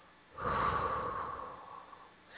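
A deep exhale of breath during a guided breathing exercise: one long, soft, airy rush that swells quickly, then slowly tapers over about two seconds. It sounds alone, at moderate to faint loudness.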